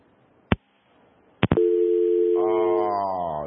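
Two sharp clicks, then a steady, loud telephone tone after a dropped call that holds unbroken to the end.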